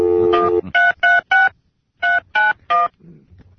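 A phone number is keyed in to place a call. A brief steady tone comes first, then six crisp, loud keypad beeps in two quick groups of three, with a short gap between the groups.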